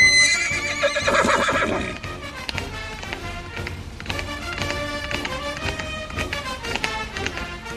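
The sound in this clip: A horse neighs with a loud, high whinny near the start, followed by steady rhythmic hoof clatter as it gallops. The hoofbeats continue throughout, and no voices are heard.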